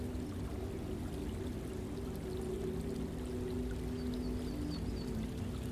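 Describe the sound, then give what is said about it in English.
Faint, steady trickle of a small stream feeding a pond beneath a cherry blossom tree in full bloom. The soft, even wash of water runs unbroken throughout at low volume. “A faint trickle of a stream feeds the pond on one side”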